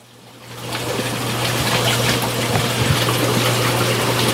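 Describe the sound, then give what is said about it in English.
Bubbling and flowing water from a backyard aquaponics system in a greenhouse: a dense, steady wash of trickling that swells in over the first half second and then holds, with a constant low pump-like hum underneath. “as you can hear, that is the sound of bubbling water and flowing water. And I have the aquaponics system that is set up in my backyard,”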